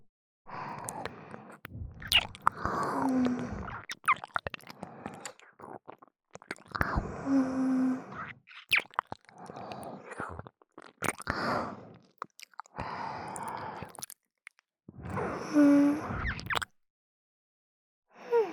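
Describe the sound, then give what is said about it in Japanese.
Wet, close mouth sounds of nibbling, licking and chewing on an ear, with soft whispering. They come in several bursts of smacking and crunching, separated by short quiet gaps. “お耳おいしい。朝ごはんほとんど食べられなかったから食べちゃおうかな。”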